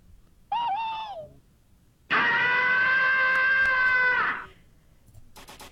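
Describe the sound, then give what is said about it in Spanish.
Peculiar cartoon character scream voiced by a person: a short, wavering high cry, a pause, then a long, loud, sustained shriek that holds steady before cutting off abruptly. “Y justo uno de sus gritos, que es como muy, muy peculiar, que más o menos suena así.”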